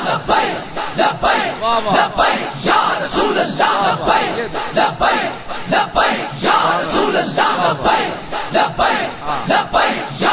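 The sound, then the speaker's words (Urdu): A crowd standing outside chants the Labbaik slogan in loud, rhythmic unison, with repeated surging shouts that rise and fall in a steady cadence throughout. “آپ باہر والے بھائی آپ ذرا باہر والے لبیک کا نعرہ لگائیں جو باہر کھڑے ہیں.”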